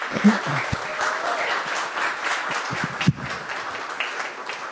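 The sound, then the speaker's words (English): Audience clapping and applauding to welcome a pastor coming up to speak: steady, dense applause throughout with a few faint voices beneath. “Now I'm more scared than ever, because I hear all the claps and I'm like, okay, what is going on?”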